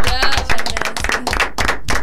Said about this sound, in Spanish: Un aplauso.